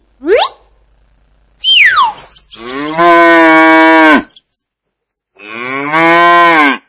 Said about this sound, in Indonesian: Ini sapi. Sapi.